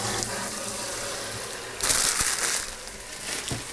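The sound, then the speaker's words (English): Tap water runs steadily while bean sprouts are rinsed, the splashing growing louder and brighter partway through, with a few soft knocks against the sink. “We've got some bean sprouts. They're in a bag. They're gonna need a rinse.”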